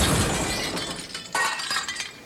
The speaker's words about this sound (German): Ich reiße die Kabel aus der Wand, nehme den Fernseher auf die Schulter und werfe ihn aus dem Fenster.